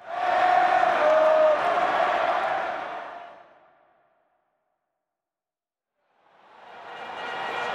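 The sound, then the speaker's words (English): Roar of a packed arena crowd at Oracle Arena in Oakland, with Golden State Warriors fans. A loud, dense wash of noise holds for about three seconds, fades to silence, then swells back up near the end. “Welcome to Oracle Arena in Oakland, California. It's packed with some of the loudest and hungriest fans in all of sports”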